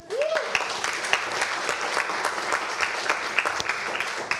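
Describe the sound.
Audience applause in a lecture theatre at an Enterprise Tuesday event: dense, steady clapping from many hands that holds evenly throughout, with a brief rising whistle right at the start.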